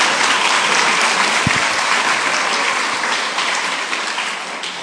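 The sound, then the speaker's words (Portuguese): A crowd applauds with dense, continuous clapping that sounds like heavy rain. It stays loud and even, then eases slightly toward the end. “Palma para mim também.”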